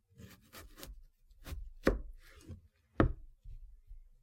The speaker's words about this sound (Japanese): 特に好きなのは玉ねぎのみじん切り。離れてしまわないギリギリを狙い、そーっと刃を入れる。